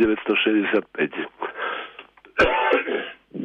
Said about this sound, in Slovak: Musím si odkašľať, pardon.